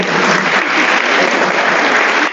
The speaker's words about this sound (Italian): facciamo un applauso da noi